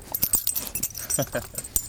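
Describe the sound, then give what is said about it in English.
A dog's sounds, brief rustling and soft snuffling noises with faint light jingling, scattered irregularly through a busy, uneven mix. “Your dog Nally has come to join us. Hi, Nally. Would you like to say a little something for the camera?”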